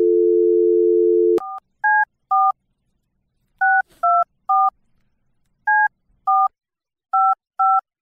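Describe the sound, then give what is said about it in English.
Telephone dialing tones for a call to a Wendy's in Irving, Texas: a steady dial tone, then ten short touch-tone beeps in uneven groups with brief gaps between them. “Oh, no, now everybody knows their number. You just broadcast their entire phone tones.”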